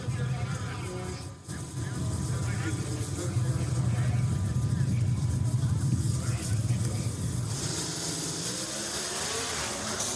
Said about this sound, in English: Two 500 cubic inch V8s about to be spun to some 10,500 RPM.